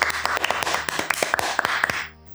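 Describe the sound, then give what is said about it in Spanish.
Girls clap in a classroom: a quick, uneven run of many sharp, bright hand claps, fairly loud, that stops abruptly after about two seconds. “¡Sí, por favor!, respondió Horacio, y todas las niñas aplaudieron.”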